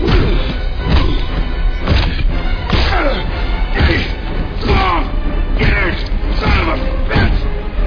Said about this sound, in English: After a while, all I'm doing is pounding wet chunks of bone into the floorboards, so I stop.